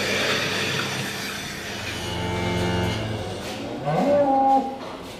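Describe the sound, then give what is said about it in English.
Cows lowing in the pit of a dairy milking shed, two drawn-out low moos, the second louder and rising slightly, over a steady background noise. “we're in the pit now of the dairy”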